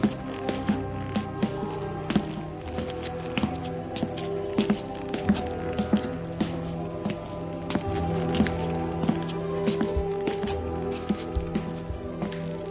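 Footsteps walking along a long, red-carpeted corridor on a top floor: many irregular, soft steps continue throughout over a steady humming background.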